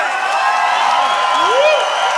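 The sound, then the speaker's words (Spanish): Crowd at a live tenth-anniversary concert cheering and clapping: a dense, steady roar with shouting voices and whoops rising above it. “¡Un aplauso!”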